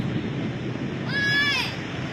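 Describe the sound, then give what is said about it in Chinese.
Mountain flash-flood water rushing downhill makes a steady, broad roaring wash that runs throughout. A brief whistling sweep rises and falls near the middle. “哎呀，山水下来了。”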